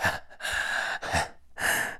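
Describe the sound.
Sharp, breathy gasps from a person: four loud, airy bursts of breath in an uneven rhythm, separated by brief pauses. No words are spoken.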